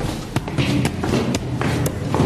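Footsteps climb a staircase during a treasure hunt, a steady run of sharp thuds roughly every half second over a dense, rushing background.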